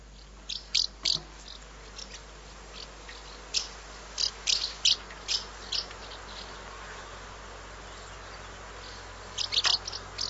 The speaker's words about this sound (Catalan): Doncs anem a escoltar com sona aquesta, la oreneta cua blanca.